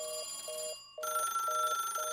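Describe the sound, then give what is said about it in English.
Phone line ringing while a sports talk show dials a guest in, heard as several short, evenly spaced electronic ring bursts over a steady tonal hum, with a brief dropout partway through. “I think we may have our guest on the phone here, guys. Let me dial him in.”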